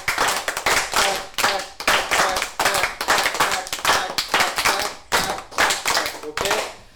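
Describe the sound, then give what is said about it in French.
Brazilian-style hand clapping for capoeira: many sharp, bright claps in a steady rhythmic pattern, grouped into repeating phrases with brief gaps between them. “C'est une frappe de main un peu plus brésilienne.”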